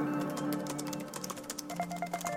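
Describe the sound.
Rapid typing on a computer keyboard during a Google search, many quick, light clicks in an uneven rhythm over a soft, steady tonal background.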